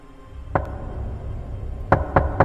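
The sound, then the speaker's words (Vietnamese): Knocking on a door of a room at night: a single sharp knock, a pause, then three quick knocks in a row, each crisp and fairly loud over a low background hum. “Đúng là tiếng gõ cửa thật.”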